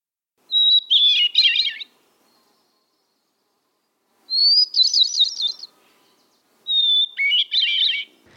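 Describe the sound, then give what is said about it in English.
Hermit thrush song in three separate phrases. Each opens with a clear, pure whistled note and breaks into a high, fluttering, ringing trill, with short silences between the phrases. “It's a hermit thrush, and one of the most beautiful calls to be heard in our area, or anywhere, in my opinion.”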